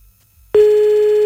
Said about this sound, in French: Bon, on rappelle. Avec un peu de bol, on tombera sur monsieur, parce qu'elle avait l'air un petit peu trop gentille, madame. Si on pouvait tomber sur monsieur, ce serait cool. Ça sonne bizarre, hein.